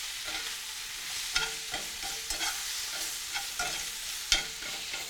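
Spinach wilts and sizzles in a hot pan for a grilled steak sandwich. A constant crackling fry runs under a few irregular scraping strokes as the leaves are stirred, with no voices.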